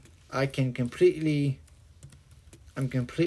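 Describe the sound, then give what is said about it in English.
Typing on a Braille computer keyboard used to browse the web: faint key clicks run under and between short bursts of a voice, and the quiet middle stretch holds only soft clicking. “I'm typing in Google, pressing space, and I'm seeing Google Chrome app, pressing enter, and now I'm surfing the web completely in Braille.”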